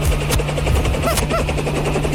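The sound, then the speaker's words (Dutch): A large helicopter landing gives a loud, steady roar of engine and rotor with a churning, thudding texture that fills the whole clip without a break. “En dan landt hij een enorme helikopter.”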